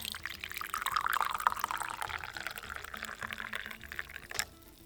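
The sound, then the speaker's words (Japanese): Freshly boiled water poured from a kettle into a cup, a steady splashing, gurgling stream that runs for about four seconds before stopping abruptly. “よし、沸いた。カップを出して注いで。”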